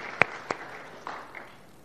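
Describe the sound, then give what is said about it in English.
One person claps their hands four times in an uneven rhythm. The first two claps are crisp and louder, and the last two are softer. “I'll clap for great-grandfather House.”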